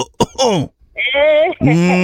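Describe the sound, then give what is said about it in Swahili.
A person coughs or clears their throat in a couple of short, harsh bursts, followed by loud voiced, moan-like sounds with wavering pitch. “unasikia hapo nani anakohoa kabisa”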